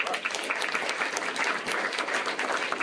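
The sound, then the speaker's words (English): Audience applause at a political campaign gathering, thick steady clapping from a crowd that carries on evenly from start to finish at a low, constant level. “give yourselves a round of applause for”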